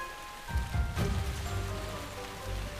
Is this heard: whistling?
no